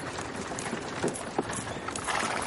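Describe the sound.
A ridden horse's hooves clip-clop past a carriage as a caravan arrives and servants unload carts. The hoof strikes are irregular and fairly soft under a broad, steady background hiss.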